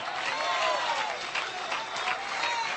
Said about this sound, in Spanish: Qué poquitos aplauden, gloria a Dios.